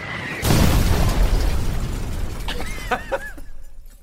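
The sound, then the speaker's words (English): A sound-effect explosion: one sudden, loud blast that spreads into a long, rumbling roar and slowly fades, with a few short crackles and whistling chirps near the end. “And then we will in post add something blowing up.”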